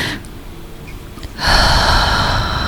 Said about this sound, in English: Take a breath. Just take a breath.